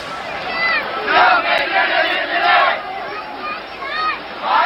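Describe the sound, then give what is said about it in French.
Protest marchers chanting slogans: a crowd of many voices shouts in rhythmic bursts that swell and recede repeatedly, over a steady bed of crowd hubbub. “Et de nouveau, des cortèges arrivent, des slogans se font entendre.”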